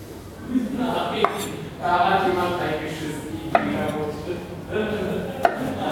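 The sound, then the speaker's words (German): A knife chops pickled gherkins for a salad, with a few crisp, sharp strikes spaced unevenly between softer scraping cuts at moderate volume. “um hier noch mal ein paar Gurken für den Salat zu schneiden. Gewürzgurken.”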